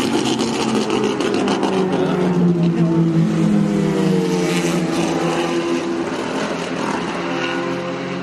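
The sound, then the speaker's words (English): Small mini race cars race around a track. Their engines make a loud, continuous buzzing drone whose revs shift slightly throughout the run. “The minis are so funny to see them racing because they're so small and they look not powerful at all.”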